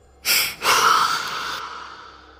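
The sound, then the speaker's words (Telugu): A deep breath taken by a detective: a brief airy rush, then a longer, breathy one that slowly fades away, heard alone without talk. “Shiva అనగానే డిటెక్టివ్కే గట్టిగా ఊపిరి తీసుకొని కళ్ళు మూసుకున్నాడు”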